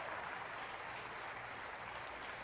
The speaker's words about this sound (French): Quelqu'un devrait dire amen et applaudir avec moi.